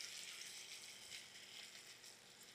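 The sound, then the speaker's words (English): Chestnuts frying in olive oil in a pan give a steady, bright sizzle that hisses on without break and at an even level, with no voices. “Okay, chestnuts are in. A little olive oil is in.”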